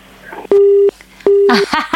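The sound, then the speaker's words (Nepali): A telephone busy tone after a call is cut off: two steady, mid-pitched beeps separated by a short pause, with a voice talking at the end. “Telephone बल्ल बल्ल लगाउनु भएको छ, ठ्याक्कै hello भन्ने बेलामा telephone काट्यो।”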